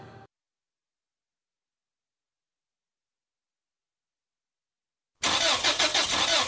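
A broken-down car's engine tries to start, cranking with a loud, rapid pulsing churn that bursts in suddenly after a long stretch of silence and continues to the end.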